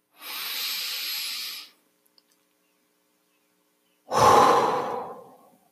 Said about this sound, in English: let's just take a deep breath. Really breathe deep, feel your breath, and focus on it